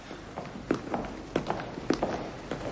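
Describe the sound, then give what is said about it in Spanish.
Footsteps of two men walking along a corridor of the parliament building, heel strikes falling at a steady, even pace. Fairly soft, over a low background hum. “Tejero y Muñecas salen del hemiciclo y recorren uno de los pasillos.”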